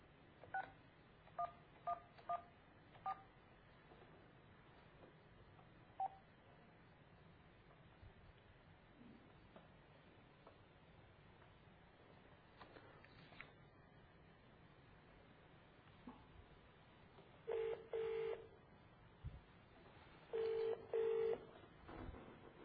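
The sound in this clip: A phone number is dialed with DTMF keypad tones: a quick run of short beeps, a lone beep a little later, then a few longer tone bursts near the end over faint background hiss.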